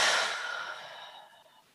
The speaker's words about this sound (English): Take another deep breath in and release.